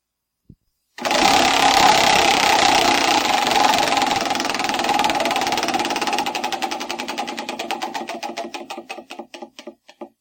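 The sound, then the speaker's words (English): A prize wheel spun during a show: a fast, dense rattle of clicking pointer ticks that steadily slows into separate, spaced-out ticks as the wheel coasts to a stop, with no voices. “So is it time to spin the wheel? Woohoo. I think it may be time to spin the wheel.”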